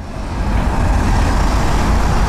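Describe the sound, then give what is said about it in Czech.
Cars crawl across a city bridge under repair, squeezed into a single lane with short queues forming, producing a steady, dense rumble of engines and tyres with no breaks. “Po Hlávkově mostě pomalu projíždí auta z centra do Holešovic. Na příjezdu se tvoří krátké kolony.”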